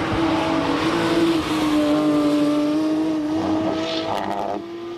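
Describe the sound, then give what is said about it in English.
A GT3 RS race car engine droning at high revs with a steady, slightly falling tone, then a brief rattling burst as it runs over rumble strips before the sound eases off at the end. “And then you've got the GT3 RS. I'll play that one for you here. It's going to sound very similar, of course.”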